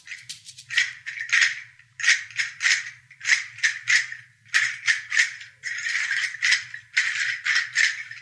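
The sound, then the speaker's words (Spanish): A seed rattle is shaken in rhythmic bursts of bright, dry rustling and clicking, with many short shaking phrases separated by brief pauses and one longer sustained shake near the end. “Este que estamos escuchando no tiene un nombre específico. Se llama, es un sonajero de semillas.”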